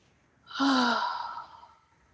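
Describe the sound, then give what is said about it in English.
A slow, deep exhaled breath: one soft, breathy sigh that swells quickly and then fades gradually over about a second, with no talk. “Take a nice deep inhaled breath. And relax as you exhale.”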